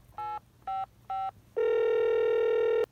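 A telephone dialing a call: three short touch-tone beeps in an even rhythm, then a long steady tone that holds to the end.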